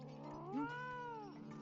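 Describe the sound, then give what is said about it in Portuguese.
A lazy pet cat gives a single drawn-out meow, quiet and harmonic, arching up in pitch and then sliding back down. “Ah, seu gato nem é selvagem. Ele não passa de um gatinho preguiçoso.”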